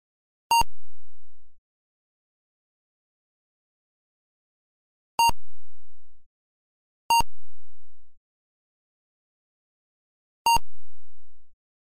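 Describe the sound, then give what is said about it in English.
Four isolated electronic beeps from a video game, sounded on entering a room. Each is a bright harmonic tone lasting about a second and fading out, separated by long, irregular stretches of silence. “just occasional beeps for like entering a room. Like, it's pretty much silent the whole time.”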